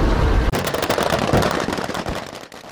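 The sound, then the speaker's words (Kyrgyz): Rapid gunfire rattles during an anti-terror training exercise, a dense, continuous stream of many loud, crackling shots with no break or voices. “Негизи ушундай атышуулар коштолгон интенировка менен кошо ошол СКР антитеррор 2018 машыгууларынын алкагында Балыкчы шаарында,”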